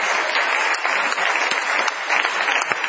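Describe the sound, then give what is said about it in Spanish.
Audience applause: steady, dense clapping from a crowd, loud and even for the whole stretch, with no voices over it. “Un aplauso muy grande”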